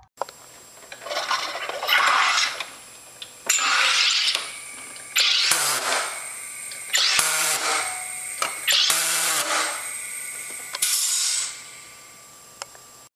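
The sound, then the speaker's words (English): Six rasping, hissing bursts from a SodaStream carbonating a bottle of water, each a loud spurt of gas separated by short gaps, with no talking. “That's the sound of the 80s, if ever there was one. The distinctive rasp of a soda stream carbonating a bottle of water.”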